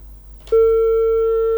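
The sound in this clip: A telephone busy tone after a caller's line disconnects: a loud, steady electronic tone cuts in abruptly after a brief click and holds unbroken to the end over a faint low hum.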